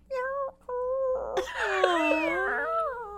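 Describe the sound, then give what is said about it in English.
A person's voice imitates a frightened kitten meowing: a short mewing call, a brief pause, a second call, then a longer, wavering, whiny wail that carries to the end. “I was the voice of the frightened kitten in the Sesame Street cartoon. The kitten was afraid of its shadow, so”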